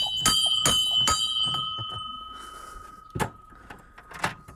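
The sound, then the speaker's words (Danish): A ship's bell is rung at a doorway, giving three quick metallic clangs with lingering bright overtones, followed by a couple of duller knocks. “Ring med skibsklokken, står der. Ja, det må vi hellere prøve.”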